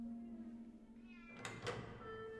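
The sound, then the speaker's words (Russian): A cat in a castle corridor gives a short, faint meow over a steady low hum and tonal background. “В коридоре сидит кот Филча.”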